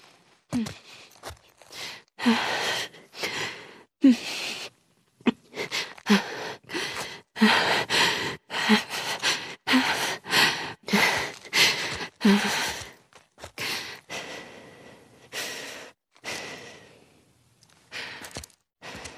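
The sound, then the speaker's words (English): Panicked breathing from a female video game character: many heavy, rapid breaths and sighs with gasping intakes, repeating in an uneven rhythm with no talk. “A bunch of things happen to kind of help you feel exactly what the character is feeling. And one of those things is the breath.”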